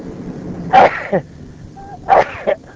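Two sneezes burst out in succession, each a loud, sharp explosive blast that ends in a shorter trailing snap, with a quiet gap between them and a faint low background hum throughout.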